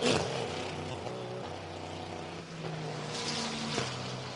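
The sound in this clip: Race car number 40, a GTP prototype, accelerates away from a pit stop down the pit lane. Its continuous droning engine note holds strong harmonics, and the pitch shifts a few times.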